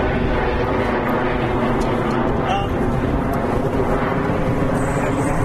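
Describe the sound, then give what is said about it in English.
A plane flies low on approach into LaGuardia, a loud, steady low roar with a whining edge that fills the whole stretch while voices talk over it. “right now we have a plane coming into LaGuardia. We're going by Central, it's noisy.”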